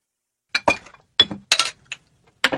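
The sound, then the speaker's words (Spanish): Glass gin bottle clinking under a sink: several sharp chinks and clattering knocks in uneven bursts separated by short silences, with no voices. “Jill, ¿qué es esto? ¿Qué? Esto es una botella de gin. ¿Qué está haciendo aquí debajo de la pileta?”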